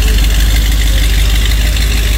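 A 1966 Corvette engine drives out of a driveway with a loud, continuous, deep rumbling drone that holds steady throughout, with no distinct revs standing out.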